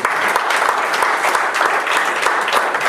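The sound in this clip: An audience at a Christmas sermon applauds in loud, dense, continuous clapping with sharp individual claps poking through the wash, and no speech rises above it.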